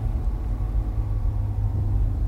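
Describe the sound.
Steady low engine rumble of a car driving through city traffic. The drone stays even and continuous throughout, with no distinct horn or voices standing out.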